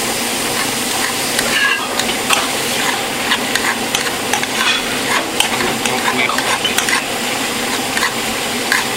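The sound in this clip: Onions sizzle and crackle as they are stirred and fried in a pan, a steady hiss with scraping stirring strokes throughout, no voices.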